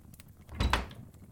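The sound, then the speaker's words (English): A door is shut with a single dull, muffled thump and a short rattle right after, standing out against otherwise quiet surroundings. “Please, come in. Shut the door behind you, if you'll be so kind.”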